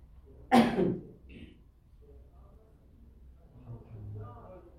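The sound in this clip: A single loud sneeze bursts out sharply during an Islamic jurisprudence lecture, brief and forceful, followed by quieter low murmuring.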